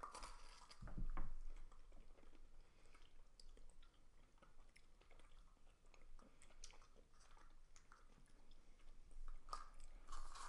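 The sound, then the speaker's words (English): Someone chewing Sour Patch sour gummy candy, giving soft, wet, squishy bites and mastication sounds that repeat steadily, quiet and close, with no talking. “I don't normally like Sour Patch or gummy things that much. But this to me still tastes like a Sour Patch mm-hmm. kid, but it tames the sour, the sour down.”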